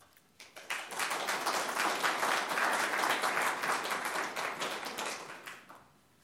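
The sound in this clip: Audience applause welcoming speakers at a library talk, steady clapping that swells quickly, holds for several seconds and then tapers off.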